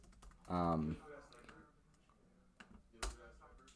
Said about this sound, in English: type in Jesus Christ painting.